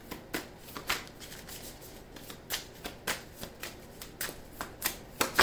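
Tarot cards being shuffled produce many quick, papery riffling bursts in a fairly regular rhythm, fairly soft, with no talking.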